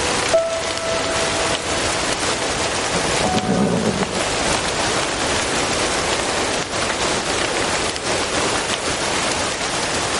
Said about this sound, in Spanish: mientras ella mira hacia la lluvia con nostalgia